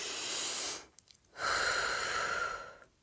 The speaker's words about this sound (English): take a deep breath. In through our noses, out through our mouth.